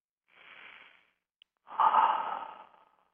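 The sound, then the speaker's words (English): A deep breath during a relaxation exercise: a soft, airy inhale, a brief pause, then a longer and louder exhale that fades out slowly, with no talk. “Take a deep breath and let it all go.”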